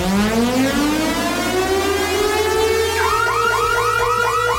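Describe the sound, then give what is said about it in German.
A radio station's festival ticket giveaway alarm sounds as a loud, continuous siren that first rises slowly in pitch, then switches to a rapid, repeating warble. “Und wenn ihr diesen Alarm hier hört,”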